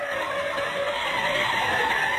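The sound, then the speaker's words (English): Car tyres screeching and skidding under hard braking, a continuous, harsh, high squeal that stays loud and steady for about two seconds with no voices. “That is the sound of the brakes being applied to the boxed beef trade to China.”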